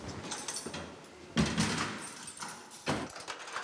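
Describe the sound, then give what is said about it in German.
A door in a prison being locked with keys gives quiet clicks and scrapes with two firmer clunks of the lock standing out. “Können Sie abschließen, bitte? Mach ich.”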